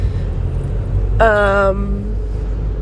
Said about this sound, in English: gosh, this man keeps beeping